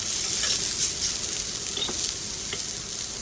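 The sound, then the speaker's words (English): Salted and peppered heart strips sizzle on a cast iron griddle set over gas stove burners, a steady, dense frying hiss with a few faint crackles and pops scattered through it. “And then immediately threw them on a cast iron griddle that was placed over the top of the gas burners on the stove.”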